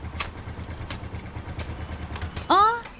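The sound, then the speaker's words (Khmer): A motorcycle arrives with a low, steady engine rumble running throughout, topped near the end by a short, loud tonal burst. “បងសុធនជិះម៉ូតូមកដល់ល្មម”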